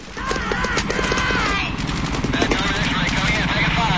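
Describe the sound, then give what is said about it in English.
Soldiers fire up at snipers on the surrounding walls, making dense, sustained gunfire: rapid, loud bursts of shots run almost without pause through the whole stretch. “They fire up at the snipers on the walls around them.”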